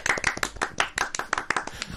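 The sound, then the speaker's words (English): Hand clapping from one person, many sharp, separate claps in a quick, slightly uneven rhythm, each a bright crisp smack standing out clearly against near silence between hits. “Every time they shout out, I just clap. Anyone that texts, you're going to get a clap.”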